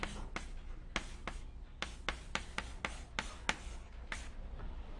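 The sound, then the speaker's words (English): Writing strokes as equations are finished during a capacitive reactance derivation: many short, faint scratchy strokes in an irregular rhythm, separated by brief pauses, with no talk. “And to finish writing it before I forget,”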